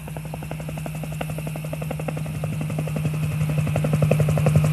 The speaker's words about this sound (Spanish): Oiga, compa, por ahí se oye un helicóptero, oiga.